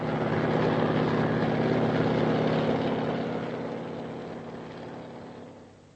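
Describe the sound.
Aircraft engine drone as the plane comes in to land: a loud, steady propeller hum and rumble that holds, then gradually fades toward the end.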